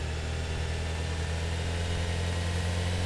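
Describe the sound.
Car engine in an audio racing video game, a continuous droning hum with a deep low rumble, steady in pitch and loudness with no voices.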